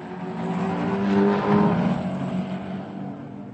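Racing car engines roar on a track before a race, forming a continuous dense drone that swells slightly midway and then holds steady, with no voices.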